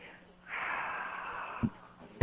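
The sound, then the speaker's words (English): A person taking a deep breath: one long, steady, airy inhale of moderate loudness, followed by a couple of brief low bumps. “I like to hear you take deep breaths.”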